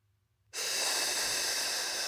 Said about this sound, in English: And as I hear that hissing sound that I'm making myself, I imagine a tire, an overinflated tire, just relaxing.